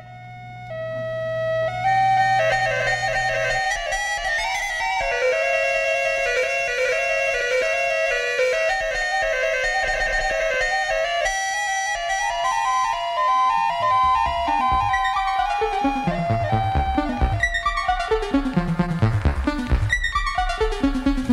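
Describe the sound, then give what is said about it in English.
Electronic music played on the Electronium, with bright synthesized tones forming sustained, shifting notes over a low drone that drops out early, then quicker stepping and sweeping note patterns toward the end. “Featuring the Electronium”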